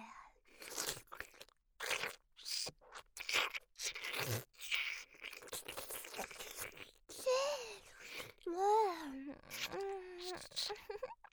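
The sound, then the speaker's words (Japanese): ASMR ear eating: wet mouth and biting sounds on the outer ear come as many close, crunchy smacks and nibbles, and a soft moaning voice joins toward the end. “じゃあお耳食べてあげるね。まずは外側から。”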